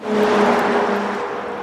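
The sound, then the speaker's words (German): Cars rush past on a road with a 100 km/h limit, a loud, continuous whooshing roar with a low engine drone that eases slightly toward the end. “Ein Auto nach dem anderen rauscht an ihnen vorbei. Erlaubt ist hier Tempo 100.”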